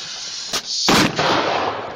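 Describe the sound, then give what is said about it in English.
Fireworks lit with a lighter go off in a brief sharp crack, then a loud hissing, crackling burst that lingers for about a second before fading. “I should not be lighting these fireworks with my lighter.”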